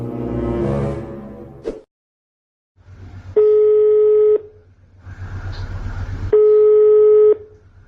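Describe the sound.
Ringback tones of a phone call to a sister-in-law. Two loud, steady tones of about a second each sound over a hissing line, with a pause between them. A voice speaks briefly at the start.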